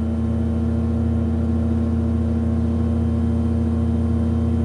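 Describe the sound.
Motor glider engine droning in flight at reduced throttle, a loud, steady low hum with strong buzzing harmonics that holds unchanged throughout.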